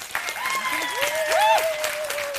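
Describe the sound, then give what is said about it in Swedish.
Game-show audience claps to vote for a contestant, with dense applause running throughout and gliding whoop-like cries rising and falling over it. “Och ni som tycker att killen i keps där borta ska vinna, klappa nu!”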